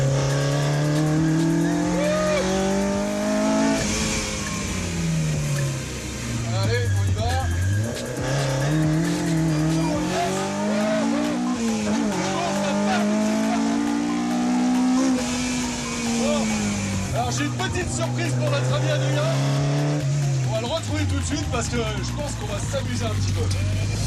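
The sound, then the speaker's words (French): A Mini driven hard on a race circuit near Dreux, west of Paris: its engine revs continuously, pitch climbing and dropping again and again through gear changes, loud throughout, with a voice speaking over it. “Ouest parisien à Dreux, juste histoire de chercher les limites de cette mini. Qu'est-ce que ça marche ? Alors là, on est sur le circuit de l'Ouest parisien, on va pouvoir se lâcher un peu quand même.”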